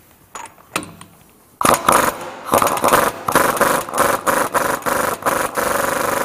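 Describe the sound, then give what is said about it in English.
An impact wrench loosening a stubborn pinion nut on a differential after the drive shaft is out. A few light clicks give way to loud, rapid mechanical hammering that runs in pulsing bursts to the end. “we did try a breaker bar, that failed, so you're going to need an impact wrench to handle this job.”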